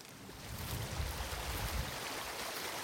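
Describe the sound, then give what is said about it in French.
A glacial mountain torrent carrying milky, sediment-laden water rushes in a steady, even roar with a broad hiss, continuous throughout and without voices. “Toujours ce torrent avec cette eau laiteuse, parce que il charrie quoi là au-dessus? On a un glacier évidemment.”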